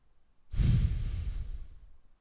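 Heavy breathing from a woman: one long, loud breath that starts abruptly, holds a rough airy rush, then slowly fades over more than a second, with no talk.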